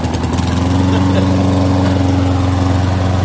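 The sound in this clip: Small engine running with a loud, low buzzing drone, chugging evenly and continuously from start to finish without pauses.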